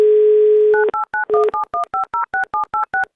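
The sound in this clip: A telephone dial tone gives way to a rapid, evenly spaced run of many touch-tone keypad beeps as a radio station dials a listener's number in the Samara region.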